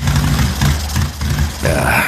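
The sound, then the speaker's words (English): Sputtering motorcycle engine on a cross-country trip, a loud, uneven low rumble that chugs in irregular bursts and surges. “Bike sputtering on me.”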